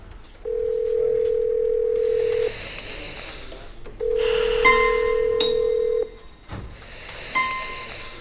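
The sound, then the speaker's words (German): Steady telephone dial tone heard while a call is being placed: two long, even stretches of the tone, then short higher-pitched beeps. No voices. “Dann ruft sie Aisha an.”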